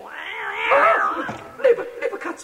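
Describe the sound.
Cat meowing: a long, wavering, drawn-out yowl that bends up and down in pitch, followed by several shorter, choppier meows.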